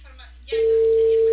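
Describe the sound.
A telephone ringback tone on a call that goes unanswered: a faint, speech-like murmur first, then a steady, loud, mid-pitched tone that holds unbroken to the end.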